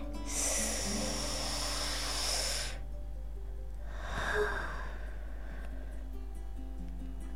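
A deep, slow inhale during a relaxation breathing exercise, a long, soft airy rush followed by a shorter, fainter breath, with a low steady hum underneath.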